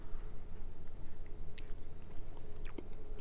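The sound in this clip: Quiet, moist chewing of a strawberry cheesecake muffin with a creamy filling: soft, continuous mouth sounds with a few brief crisper bites.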